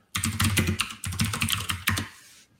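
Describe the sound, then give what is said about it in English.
Computer keyboard typing as a command is entered: quick, clattering runs of keystrokes in a few dense bursts, separated by short pauses, ending in a quieter tail. “if I type Java minus version, we should see that Java is installed.”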